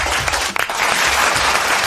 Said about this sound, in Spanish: el aplauso de la mañana es para Pachu Peña